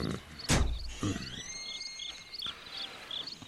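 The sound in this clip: Wooden door opening at night: a few dull knocks and thuds, then a thin drawn-out creaking tone, over a steady chirping of crickets.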